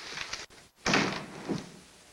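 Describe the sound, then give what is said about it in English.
A door closing as people leave: soft rattling, a brief hush, then a solid thump followed by a fainter knock, with no talking. “Teddy follows Peggy to the door. Good night, Vince. They leave.”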